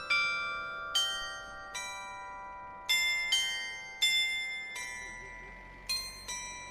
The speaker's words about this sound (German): Umrahmt von bunten Häusern steht dort ein gläserner Glockenturm. Im Zwei-Stunden-Takt erklingt tagsüber eines der bekanntesten deutschen Wanderlieder.